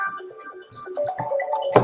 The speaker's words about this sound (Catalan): No, espera't, agafa el telèfon i continuo.